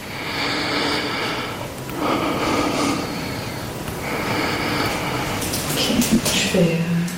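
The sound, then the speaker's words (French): Deep breathing through an open mouth during a lung auscultation: a few slow, breathy airflow cycles of steady loudness, with a voice briefly audible near the end. “Alors, je te laisse déjà faire l'auscultation pulmonaire complète. Hein. Ouais. Okay. Alors, je voulais juste respirer profondément la bouche ouverte.”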